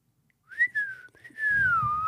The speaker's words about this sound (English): people that whistle as well I don't get it how you can just come out into a little whistle sing song I can't whistle